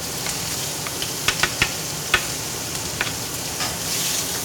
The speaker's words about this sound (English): All right, a little oil in, and the oil's gonna smoke right away, right? And now the beef will go in.